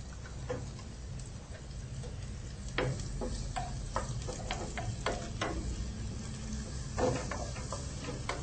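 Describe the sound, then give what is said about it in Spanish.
A small spoon stirring vegetable oil in a pan, making many light irregular clicks and taps against the pan over a faint steady hiss. “La cucharita que la tengo por acá. Y lo empezamos a revolver.”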